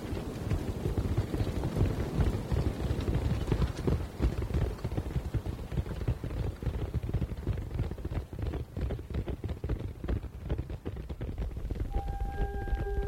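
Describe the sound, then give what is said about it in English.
Hoofbeats of horses galloping off across desert sand as two riders leave in different directions, a dense, steady clatter of rapid hoof strikes continuing throughout. “The two cowboys, Brax and Joe, ride off in different directions, leaving the unconscious Briar Buck”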